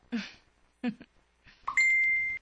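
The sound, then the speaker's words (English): A cellphone text message alert sounds as a steady, sustained high electronic tone, following a couple of brief voice sounds. “Tingog imo cellphone. Text, mani?”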